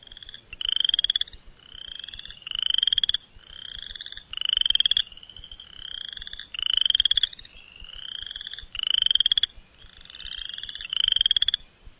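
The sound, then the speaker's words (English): Western chorus frogs calling: repeated raspy, rising trills in a steady rhythm, with louder and softer calls alternating as though several frogs overlap, over a faint low background. “Western Chorus Frog.”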